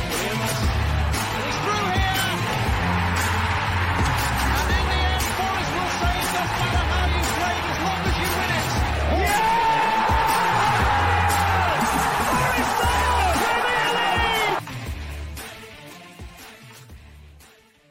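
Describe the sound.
A football crowd roars for a Forest goal at home to Blackpool in an FA Cup tie. The loud, continuous cheering with whoops holds steady for about fourteen seconds, then drops and fades away.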